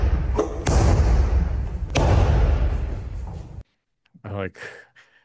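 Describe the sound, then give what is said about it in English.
A Russian boxer in a tracksuit unloading punches on heavy bags: a few heavy, booming thuds over a dense, loud pounding wash, then a short pause before a voice briefly speaks. “Russian boxer that just fucking unloads on these heavy bags. I just love the percussion here.”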